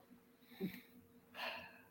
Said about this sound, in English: I'm just gonna pause for a minute and take a breath.